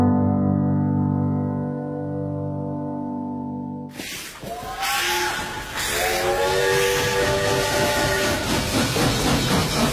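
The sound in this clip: A train whistle blows as one long, steady, many-toned chord for about four seconds, then cuts off into loud, continuous rolling rail noise with hiss and some shifting tonal squeals.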